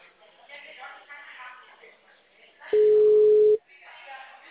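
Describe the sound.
A telephone ringback tone plays as a call connects, one steady mid-pitched tone of about a second, louder than the thin, phone-quality talking heard before and after it.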